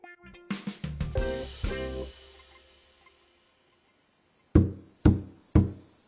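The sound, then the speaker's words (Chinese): Knocking on a door with a hand while delivering a takeout meal: three firm, evenly spaced raps about half a second apart, coming after a brief burst of other percussive sounds and a quiet pause. “一万三伸手敲门”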